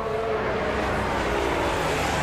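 A Formula 1 race car drives during the first free practice session of the Spanish Grand Prix, its engine a dense, steady roar that holds evenly throughout without a clear pass-by swell.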